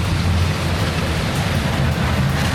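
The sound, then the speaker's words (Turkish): Heavy rain downpour over Diyarbakır, a dense, steady roaring hiss that stays loud and even throughout with no voices. “Sağanak yağış Diyarbakır'da hayatı felç etti.”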